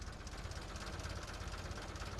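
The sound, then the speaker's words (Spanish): An old car engine, started by hand crank, idles with a steady, rapid, rough chugging pulse and a dense mechanical rattle. It runs loud and even throughout, with no voices. “Y ahora solo se da la manivela y que arranque. Se agacha motor para dar la manivela. Ahí está.”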